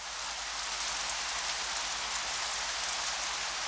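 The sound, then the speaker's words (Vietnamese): Steady rain falls as a gusty wind picks up at dusk, a dense, even hiss of drops that stays constant and fairly loud for the whole clip, with no voices. “Ừ, lại có mưa nữa kìa.”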